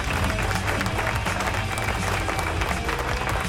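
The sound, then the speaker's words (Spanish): Applause from an audience, a steady, dense clatter of many hands clapping over a low rumbling bed, continuous and fairly even for a few seconds. “Así que ahí los tenemos, aplauso.”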